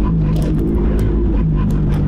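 A car drives and turns, its engine giving a steady low drone that stays fairly even throughout with no other sounds standing out.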